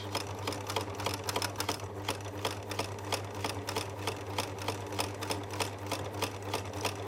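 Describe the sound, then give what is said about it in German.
A sewing machine stitching a homemade snaffle bridle gives a steady, rapid run of mechanical stitch clicks over a constant low motor hum, with no talking. “So, hier noch schnell fertig steppen. Und dann haben wir hier auch schon umnäht.”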